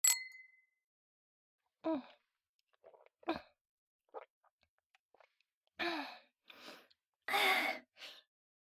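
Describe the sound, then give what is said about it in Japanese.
Glasses clink once in a toast after a drink is poured, a bright ring that fades quickly, followed by several breathy sighs and gasps. “じゃあ魔法の薬をグラスに注いで乾杯。”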